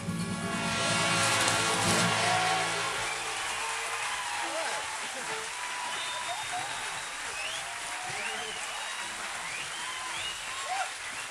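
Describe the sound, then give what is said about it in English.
A rowdy crowd cheers and applauds. The clapping and shouting are loudest in the first couple of seconds, then settle into a sustained, lively din with voices running through it. “You know the same rowdy crowd that was here last night is back again.”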